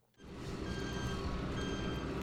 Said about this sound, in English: An 18-wheeler spins its tires through snowy mud on an undeveloped well pad in the Powder River Basin.